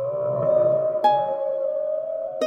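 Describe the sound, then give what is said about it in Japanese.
Whale calls from many whales gathering in the sea: long, smooth, tonal cries that overlap and hold steady, with a brighter call starting sharply about halfway through and another near the end. “あ、クジラだ。 おお、たくさん集まってきたようじゃの。”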